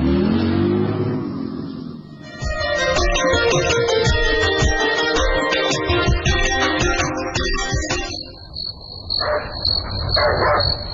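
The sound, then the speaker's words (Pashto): A dog barks at night: a few sharp barks rise from a dense, noisy background, with a steady high chirping of crickets running through the later part. “نه پوهیږم چې دا سپی ولې غاپي”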